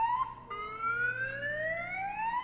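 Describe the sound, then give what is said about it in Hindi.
Car alarm blaring from an unattended parked car, a loud, continuous electronic tone that sweeps steadily upward in pitch, restarting after a brief break and climbing again, rich with bright harmonics. “इस कमबख्त alarm को आकर बंद करें, दिमाग खराब करके रख दिया इस लावारिस गाड़ी ने”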